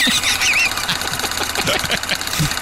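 A prize wheel spins in a game, its pointer ticking in a long run of sharp clicks, with warbling high tones behind.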